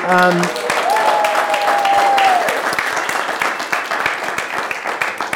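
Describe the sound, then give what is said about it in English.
Audience applause for a woman invited up on stage: dense, continuous clapping that stays loud and steady, then thins slightly toward the end. “I have to say they cheered more for her than you”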